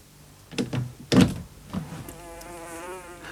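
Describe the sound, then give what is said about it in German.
Housefly buzzing indoors: a few soft bumps, then a faint, wavering, steady drone that carries on to the end. “Oh, Wetter, da gebe ich nicht acht und meine Fliege schlüpft hinaus. Nun hat sie, was sie haben wollte, Freiheit.”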